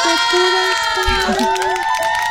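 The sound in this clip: Crowd cheering for a singer after a song, with loud shouting and whooping voices over music and scattered noise, dense and continuous throughout.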